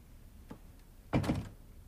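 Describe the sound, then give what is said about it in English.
A door being closed indoors, a faint click followed by a single solid thump with a brief rattle, with no voices. “Michael and George leave, and Barry closes the door after them.”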